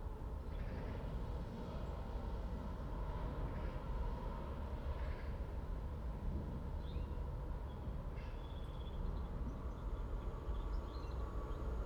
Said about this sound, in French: voie 2, train passage. Spoor 2, doorrijdende trein.